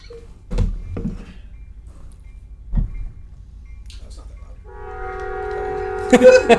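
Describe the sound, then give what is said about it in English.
Passing train with a low, steady rumble and a few dull thuds early on. A loud, sustained, multi-tone horn then blares from midway through to the end. “And that's a train.”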